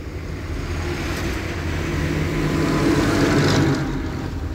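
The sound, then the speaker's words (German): Low, continuous engine and road rumble from a tanker truck driving close behind and trying to overtake. It is steady and loud, swelling slightly toward the later part before easing. “Dieser Tankwagen ist wieder hinter uns. Oh, verflucht, der will überholen.”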